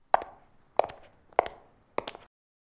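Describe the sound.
Four footsteps going upstairs, evenly spaced sharp knocks with short resonant tails, fairly faint and heard alone.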